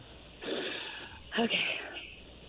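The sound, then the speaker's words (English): A person takes a deep breath: two soft, breathy rushes of air, the second louder and noisier than the first, with no talk. “All right, let me hear you take a deep breath.”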